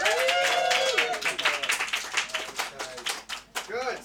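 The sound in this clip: Clapping and applause from a comedy club audience in Edinburgh for a stand-up comedian, loud at the start and then thinning into scattered, uneven claps over a few seconds.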